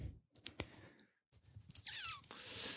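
Typing on a computer keyboard: a quick run of faint key clicks, a brief silent pause, then another burst of irregular keystrokes.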